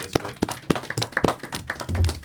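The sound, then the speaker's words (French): Applause for performers, heard as a handful of sharp, separated hand claps at an irregular pace, with a few softer taps in between rather than a full ovation. “Let's go, applaudissements pour vos performances.”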